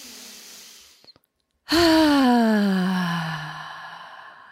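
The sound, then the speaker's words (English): A deep, slow breath released as a long, loud voiced sigh that falls gradually in pitch, after a faint breathy intake and a short pause. “Taking that deep, slow breath.”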